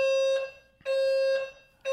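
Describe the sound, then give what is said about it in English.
A building's fire alarm going off during a fire drill, sounding loud, piercing, buzzy tone blasts in a steady repeating rhythm with short gaps between them, heard alone. “That's our fire alarm.”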